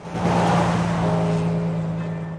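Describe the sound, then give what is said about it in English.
A Land Rover drives along a dual carriageway, giving a steady low engine drone under a broad rush of road noise. The sound stays fairly even throughout, with no voices. “Land Rover drives along the dual carriageway between the high walls.”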